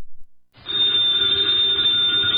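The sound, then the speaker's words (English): A telephone bell starts ringing after a brief silence and keeps up one continuous, loud, bright metallic ring to the end. “the ringing of that phone bell means adventure.”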